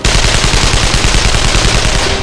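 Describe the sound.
Rapid automatic gunfire from an AKM rifle emptying its magazine: a loud, unbroken stream of many quick shots at a steady, driving rhythm from start to finish.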